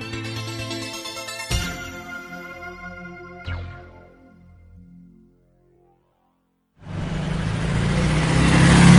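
A car driving on a road trip along Route 66. A few seconds of tonal sounds are followed by a short silence, then a broad engine and road noise sweeps in and grows steadily louder to the end.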